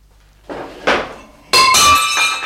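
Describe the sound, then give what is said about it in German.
A ceramic Greek wine jug is knocked over and breaks: two dull knocks, then a loud crash with a ringing, clinking shatter that trails off. “Jetzt habe ich eine chinesische Vase umgeworfen. Ein griechischer Weinkrug. Der ist kaputt.”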